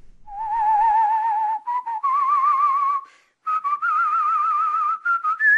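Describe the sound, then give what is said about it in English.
A man in Dundee, in northeast Scotland, whistles a slow tune of long held notes. It is clear and loud on its own, with short breaks between phrases, and the pitch edges slightly higher toward the end. “Whistling is a skill passed down through generations of men here.”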